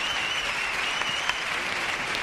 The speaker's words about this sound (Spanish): Y es donde parece también que la agrupación ha remontado su actuación y ha hecho que el Falla despida a estos renacidos en pie.